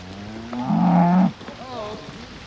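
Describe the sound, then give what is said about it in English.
A cow lets out a loud, low, drawn-out moo as a herd is driven along a farm lane in the rain. A fainter, wavering call follows over a steady patter of rain. “A farmhand comes round the corner driving a herd of cows.”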